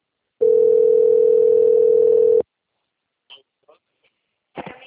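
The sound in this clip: A telephone rings while a call goes through: a single steady, mid-pitched ringing tone lasts about two seconds, then cuts off, followed by silence and a few brief, faint voice fragments.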